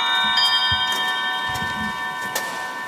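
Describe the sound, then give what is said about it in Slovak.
A 19th-century music box shaped like a silver swan rings with sustained, bright metallic tones, with soft mechanical ticks and light clicks running beneath the steady chime. “Bola to hracia skrinka, bola to strieborná labuť, ktorá kedysi bola ozdobou nejakej domácnosti v 19. storočí.”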